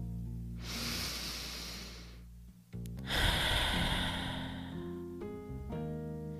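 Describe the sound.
A slow, deep breath drawn in and then let out, as two long airy rushes with a short pause between them, over soft sustained music.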